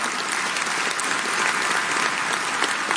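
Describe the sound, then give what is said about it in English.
Steady applause from an audience at a talk, with dense, even clapping that holds at a loud level throughout and no clear breaks. “Let's give a round of applause.”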